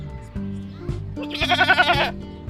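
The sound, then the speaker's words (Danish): A lamb in a fenced enclosure gives a single loud, quavering bleat with a wavering, vibrato-like pitch that lasts just under a second. “kigger på et indhegnet lam”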